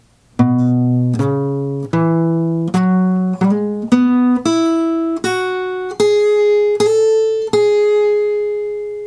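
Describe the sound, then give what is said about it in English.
A second electric guitar part played as single clean notes, each plucked note ringing in a slow, even rhythm, stepping gradually upward in pitch, with the last note left to sustain and fade. “Then there's another guitar part happening while that is going on, and it sounds like this.”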